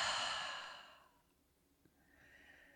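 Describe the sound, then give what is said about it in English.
An open-mouthed exhale after a held breath, a long airy sigh that starts strong and fades over about a second. Quiet follows, and a fainter breath begins near the end. “take a moment to pause, holding the breath at the very top. And now open the mouth and exhale.”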